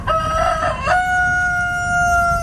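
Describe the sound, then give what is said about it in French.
A rooster gives one long, loud crow. Its held note steps up in pitch partway through and then carries on steadily to the end over low background noise. “C'est le fameux coq”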